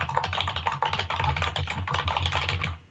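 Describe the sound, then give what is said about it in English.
Fast typing on a computer keyboard comes through an unmuted microphone during an online meeting. Dense, rapid keystrokes rattle on at a steady pace, then stop near the end. “It's unmuted. Wow, someone can type fast.”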